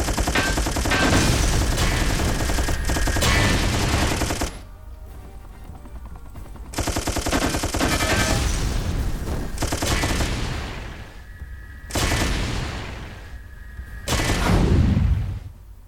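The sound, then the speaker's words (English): Machine gun fire in a video game comes as three long bursts of rapid, loud shots separated by short pauses. The last burst ends in a heavier boom. “Rocket manufactured. Rockets. Machine gun.”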